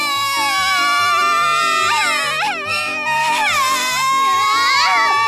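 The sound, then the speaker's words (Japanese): A child cries and sobs, a high wavering voice sliding up and down in pitch, continuous and loud for the whole stretch. “もう、わかったわよ。わかったから泣き止んでちょうだい。”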